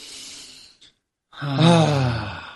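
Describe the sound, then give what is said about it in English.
A deep breath taken during a breathing exercise: a soft, airy inhale, a brief silent pause, then a longer, louder voiced exhale like a sigh. “So today's breath, should we just jump right into it? We'll take a breath. All right, let's take a breath.”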